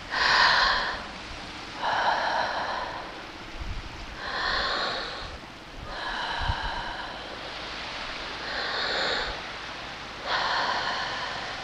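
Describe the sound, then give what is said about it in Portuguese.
Slow, deliberate breaths drawn in and pushed out through the mouth during a guided breathing exercise, a steady series of airy, hissing inhales and exhales, fairly loud, with no talk. “vamos aproveitar para respirar por sete vezes. Pela boca inspira e pela boca expira.”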